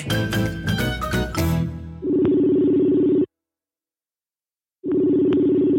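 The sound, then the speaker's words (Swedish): Phone call being placed: a brief burst of music gives way to a steady ringing tone, heard twice, each lasting about a second, with a silent gap between. “Ska vi ta ringa upp Acke? Det ska vi.”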